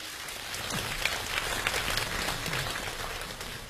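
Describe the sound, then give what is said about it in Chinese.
Audience applause at a comedy show welcomes a performer to the stage. Many hands clap in a dense, even roar that holds steady throughout, with no talk over it. “掌声有请连春建。”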